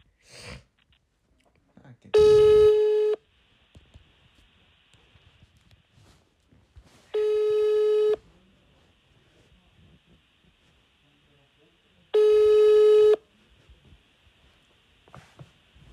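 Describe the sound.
A telephone ringback tone sounds while calling an office: three long, steady, buzzing rings of equal length, evenly spaced with near-silence between them.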